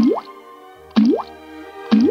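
Water drips from a fountain damaged in a war and now leaking: three resonant plops, each sliding upward in pitch, fall at a slow, steady rhythm over a faint, constant low hum.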